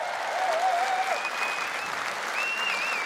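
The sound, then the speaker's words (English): Applause from an audience of about a thousand people greeting a guest at a charity fundraising evening: steady, dense clapping throughout, with wavering whistles rising over it. “Matt Hampson, everybody. Put your hands together.”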